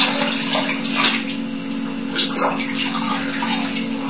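Water runs steadily from a tap while something is being washed, a continuous even rush of hissing flow with small splashy surges, holding at a moderate level throughout.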